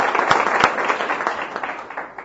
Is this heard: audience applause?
yes